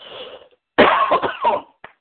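A person clearing the throat and coughing: a soft raspy rumble, a short pause, then a loud, harsh cough with several rough pulses, ending in a small final catch.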